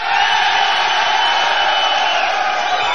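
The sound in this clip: Studio audience of male students cheering and whooping, a loud, dense, unbroken roar of voices that holds steady throughout.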